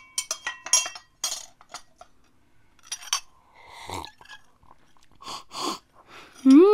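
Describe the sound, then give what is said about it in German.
A cup of peppermint tea with honey is served: a quick series of light clinks of china and glass, a spoon tapping, then softer breathy sounds, and a voice starts at the very end. “Komm, nimm erstmal von diesem Tee. Pfefferminz hilft am besten. Mit ein bisschen Honig.”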